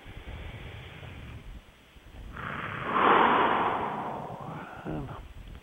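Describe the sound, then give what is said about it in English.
A deep breath taken during a guided relaxation session: a slow, airy inhale that swells to a loud peak and then eases off into a gentler breathy release. “And take a deep breath.”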